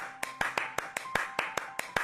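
Hands clapping in a steady, even rhythm, about ten sharp claps at a moderate pace, fairly faint, with a soft tone sustained beneath.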